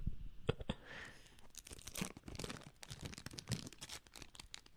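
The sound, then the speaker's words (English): Decades-old stale gum from a 1990 Topps baseball card pack is chewed with crunchy, crackly bites and moist clicks. The many irregular chews are fairly faint, with no talk. “I have to eat bad gum. ASMR freaks, buckle up. Here we go.”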